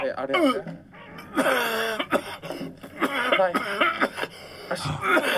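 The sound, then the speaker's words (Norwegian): A person imitates someone with something unpleasant stuck in the throat, making a few bursts of gagging coughs and throat-clearing with strained, pitched groans between them. “Noen som har fått noe i halsen de ikke likte. Ja, det helt riktig.”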